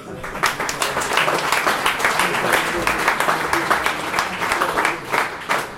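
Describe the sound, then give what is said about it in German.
Audience applause, with dense, steady clapping at an even level for about six seconds. “Dein Applaus.”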